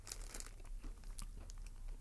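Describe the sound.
Crisp crunching and crackling while eating a tiny sugar-topped biscuit, a dense run of brittle, crinkly bursts without pause.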